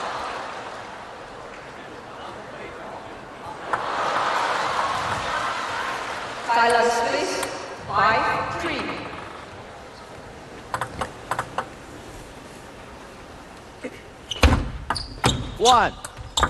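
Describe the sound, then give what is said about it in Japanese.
Table tennis ball struck crisply by the paddle blade during a match rally, a few sharp, bright clicks and knocks heard over steady background noise with voices. “击球击得非常实啊，能够听到清脆的底板的声音。”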